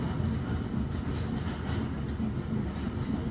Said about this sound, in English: nearer and nearer it gets. As the train edges along the tracks,